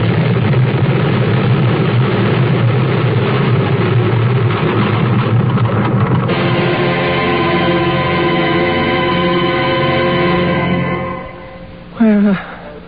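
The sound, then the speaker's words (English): A space jet's engine roars loudly and continuously as it stalls in a dive, with steady whining tones entering midway; the roar drops away near the end before a brief tonal burst. “takes off in her space jet, flies high, then spins to Earth. Her plane stalls. The end to her dive seems inevitable.”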